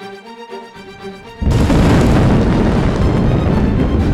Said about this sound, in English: John, that building just finished collapsing.